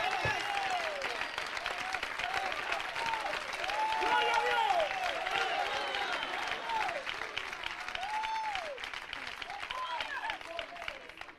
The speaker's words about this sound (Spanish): yo voy a aplaudir por algunos que no pueden hoy en esta hora